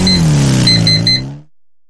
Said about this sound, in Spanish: Con la C4 de CF Moto, tienes una cuatrimoto lista para acompañarte a trabajar el campo